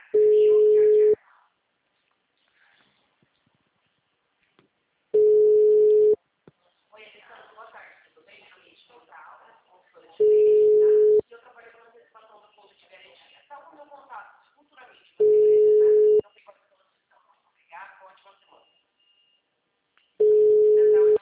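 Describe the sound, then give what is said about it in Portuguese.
A telephone tone on a line after a dropped call: five steady, mid-pitched one-second beeps about five seconds apart, with faint voices between them. “a gente estava conversando agora, a ligação caiu.”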